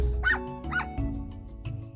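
A small dog gives a few high-pitched yips and short barks, some with a whining edge, spaced irregularly over a low steady background hum.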